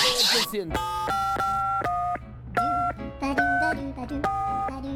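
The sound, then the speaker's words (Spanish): Touch-tone keypad dialing a United States phone number. A brief noisy burst is followed by several steady dual-tone beeps of differing lengths with short gaps between them. “Vamos a llamar al presidente, ¿eh? Le voy a marcar de inmediato, amigo.”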